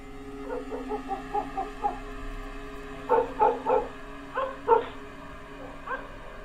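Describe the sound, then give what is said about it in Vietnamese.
A dog barks at night: a run of quick, lighter yips, then several louder, fuller barks in short bursts, over a faint steady background hum. “chốc chốc lại có tiếng chó cắn ma ông ổng ông ổng”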